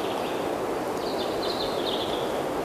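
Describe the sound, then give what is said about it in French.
Birds sing among trees, with thin, high whistling notes drifting in and out over a constant rustling hiss. “Ces arbres et ces oiseaux enchanteresques.”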